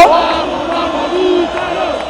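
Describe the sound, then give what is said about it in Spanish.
A football stadium crowd makes a dense, sustained roar of many voices as a player leaves the pitch, holding steady and fairly loud throughout. “Se va entre aplausos”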